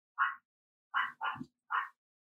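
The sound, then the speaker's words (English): A dog barks in the background with four sharp, mid-pitched barks. They come as one short bark, a pause, then two quick barks close together and a final one, with no one talking. “I apologize for the dog barking in the background.”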